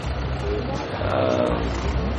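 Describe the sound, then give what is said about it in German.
A tractor overtaking on a road: a deep, steady engine rumble with broad noise that grows slightly louder in the second half. “Ein Traktor überholt ihn.”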